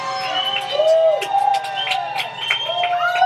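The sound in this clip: Noise from a rock-and-roll party crowd outside the room: a steady, muffled babble of many voices, with raised, drawn-out shouted or sung tones rising and falling throughout.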